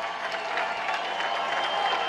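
A baseball crowd roars and claps to urge on a pitcher in a tie game, top of the eighth with the bases loaded. The sound is a continuous, dense wash of cheering with no breaks.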